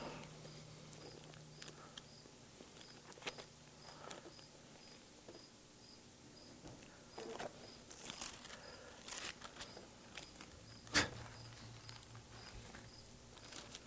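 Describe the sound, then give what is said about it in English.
Cricket chirping during a church worship service, a faint, steady series of high, rapid chirps repeating throughout, with occasional soft knocks and rustles around it. “I hope that cricket's getting some out of this today. He's worshiping. He's just praising. I see his little hands. Well, I think, is that how they're making noise? They rub those things together?”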